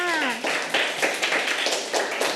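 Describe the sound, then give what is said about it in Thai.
Students in a classroom clap for a classmate: a few loose, uneven claps scattered across the moment, with a voice sounding briefly at the start. “เก่งมากค่ะปรบมือให้เพื่อนค่ะ”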